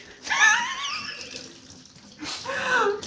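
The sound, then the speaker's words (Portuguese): Cold tap water runs and splashes in a sink as dishes are washed by hand. Two short bursts of gushing, splashing water, the second after a brief quieter gap, are moderately loud and heard without talk. “Eu lavo a louça no frio mesmo”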